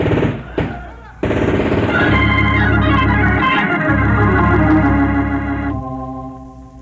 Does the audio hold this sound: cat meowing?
no